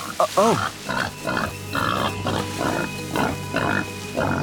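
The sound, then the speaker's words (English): Deep grunting and snuffling from a giant wild boar in a snowy clearing: a steady run of many loud, rough grunts and snorts, some with a squealing, wavering edge, following one another without pause. “A massive, dark shape stepped into the clearing. It was a giant boar”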